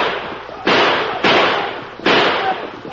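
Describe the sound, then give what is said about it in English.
Gunshots ring out in a radio drama fight scene: a series of loud, sharp bangs, each with a short ringing decay, spaced irregularly with no talk between them. “Shoot them now, Red Fox! Kill them!”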